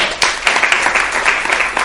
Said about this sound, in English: I'll take the applause vicariously because the thought is not original with me.